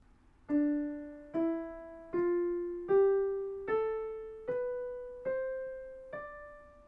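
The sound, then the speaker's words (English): A Dorian mode scale beginning on D rises stepwise over eight struck notes at an even, unhurried pace. Each clear tone fades before the next, with no voices. “The Dorian mode, which sounds like this,”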